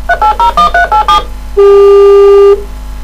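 Mobile phone dialing: a quick run of about six bright keypad tones, followed by a single steady, loud tone lasting about a second. No one speaks.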